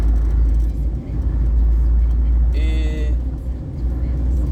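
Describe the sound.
A car being driven on the road gives off a steady, loud low rumble of engine and road noise, with a brief higher tonal sound partway through.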